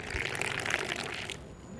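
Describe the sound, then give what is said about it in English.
Moroccan mint tea being poured into a glass on a rooftop terrace, a steady, bright liquid splashing stream that runs for over a second and then stops abruptly, leaving quiet background. “That's the sound of pouring Moroccan mint tea.”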